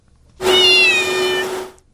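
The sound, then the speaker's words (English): A cat gives one loud, drawn-out meow lasting over a second, bright and harmonic with fairly steady pitch, alone with no talk. “That's the cat. That's the cat.”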